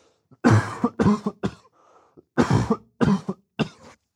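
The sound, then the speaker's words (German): A person coughs repeatedly in two bursts of three harsh, loud coughs each, separated by a short pause with faint throat sounds, and no talk. “deswegen müsst ihr jetzt meinen Husten einfach anhören”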